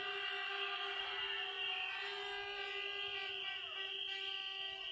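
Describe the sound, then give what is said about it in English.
A crowd at a DJ event blows whistles. Shrill, overlapping tones hold steady and continuous throughout, forming a dense, loud wall of sound. “Whistle Crew, make some noise for Clarky! Keep fucking blowing!”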